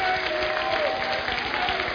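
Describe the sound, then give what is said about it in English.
Applause rises from an audience standing during a church worship service, a dense, even wash of clapping with a sustained held musical tone running beneath it for the whole stretch. “Can we just stand up and just give a roar of just applause and Lord Jesus”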